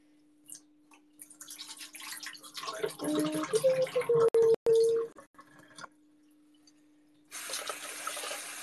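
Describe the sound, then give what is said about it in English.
Water sloshes and splashes as something is rinsed in running water. The splashing builds, then drops to near silence before a steady rush of draining water starts. A faint constant hum runs underneath. “Actually, I'm just gonna rinse it normally. Feels nice in the water. I'm gonna rinse it and then drain it like washing rice.”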